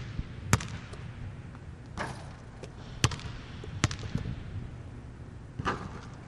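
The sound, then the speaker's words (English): Basketball dribbled on a court, heard as several sharp, hard bounces at irregular intervals over a faint, hissing background. “Aleph dribbled the ball from right to left, trying to bypass Daniel.”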